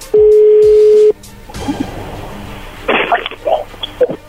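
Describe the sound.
A telephone tone sounds as a call comes in: a single steady, loud, mid-pitched tone lasting about a second, followed by quieter line noise and a few brief muffled sounds.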